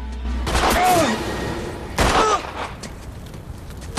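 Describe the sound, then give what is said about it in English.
Gunfire in a tense drama scene where a woman fires during a struggle between two men: two loud, sharp blasts about a second and a half apart, each decaying into a rumbling tail. “Joe pins William, and Karen fires.”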